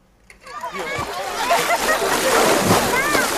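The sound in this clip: Someone splashes into water on a hot summer day: a sharp splash breaks the quiet, followed by continuous sloshing and churning water mixed with lively voices, including children's.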